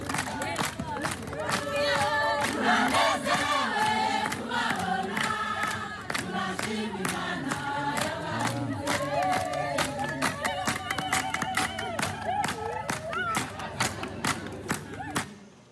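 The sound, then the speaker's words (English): A crowd at Mitego Parish church in Rwanda welcomes arriving visitors with loud, continuous singing and chanting over steady rhythmic clapping or beats that carries on throughout. “let me just give you a video of the welcome we received when we pulled up.”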